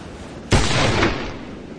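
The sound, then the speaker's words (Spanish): A single gunshot goes off during a duel: one sudden, loud, sharp crack that starts at full strength and rings out for about a second before fading into quieter background noise. “El tiro.”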